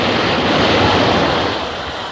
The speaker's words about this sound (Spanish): ¡Oh! ¿Nota la brisa del metro? ¡Oh! ¡Qué sensación!